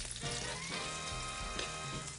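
Samosas sealed with egg white fry in a pan with a faint, steady sizzle and crackle of hot oil, continuous throughout with no talk.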